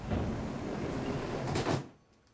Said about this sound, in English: Frances puts her tea bag in a cup, then looks around, opening empty cupboards with disappointment.